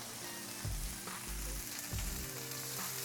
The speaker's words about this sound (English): And you can see that it's nice and hot and hear the sizzle when you put it on,